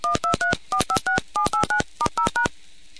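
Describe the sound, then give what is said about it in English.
Telephone DTMF digit tones dialed during a line test, twelve short beeps in four evenly spaced groups of three, each a clear, loud two-note chirp separated by brief gaps of quiet. “Line current pass. Please dial all digits.”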